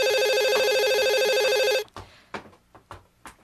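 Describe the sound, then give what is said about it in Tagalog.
A telephone bell rings in a rapid, repeated trill, loud and steady for almost two seconds, then stops abruptly. A few soft knocks and thuds follow in the quiet. “Ang aga naman ang tumatawag na to.”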